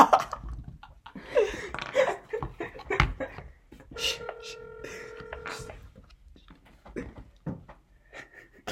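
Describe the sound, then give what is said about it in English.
Telephone tones as someone calls a person back: a short run of steady electronic beeps sounds between bursts of lively chatter, with several people talking throughout. “I'm gonna call him again.”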